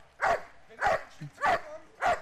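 A dog barks as if at a mail carrier, giving four evenly spaced, mid-pitched barks of moderate loudness with no talk over them.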